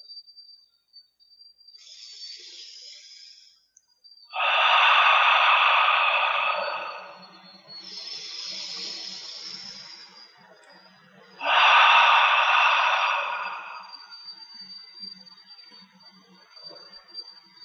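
Slow, deep breathing alternates between inhales and exhales: two long, loud breaths stand out among softer ones, while a steady high tone rings faintly throughout.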